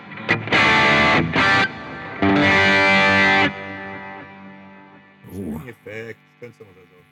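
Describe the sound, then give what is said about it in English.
A driven, distorted electric guitar on a Squier Paranormal Series model plays through a heavy delay effect. Two long, loud chord bursts trail off into fading repeats, then people talk briefly. “It's a mad delay going on. Yeah, okay, keep the delay, guys.”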